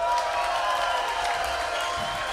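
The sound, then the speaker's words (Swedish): Audience applause and cheering from a live crowd answering a host's question, a dense steady wash of clapping with scattered whoops that holds at an even, fairly loud level throughout. “Hur många mår bra? Applåderar ni som är bra?”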